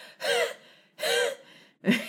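Three congested, gasping breaths from a person with laryngitis and bronchitis. Each breath is raspy and wheezy with a whistling tone, separated by short pauses, and the third is shorter and cut off.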